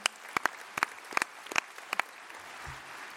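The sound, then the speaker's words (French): A brief, faint round of clapping from a few hands, a short run of sharp, slightly uneven claps that stops after about two seconds and leaves near-quiet. “Bravo à lui. On peut l'applaudir.”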